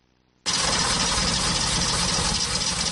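Car engine abruptly bursting into a loud, steady roar after near silence, then holding an even, rough drone with no break.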